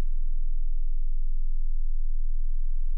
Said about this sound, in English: Now, here is a progression of tones increasing by octaves from 20 Hz to 20,480 Hz. 20.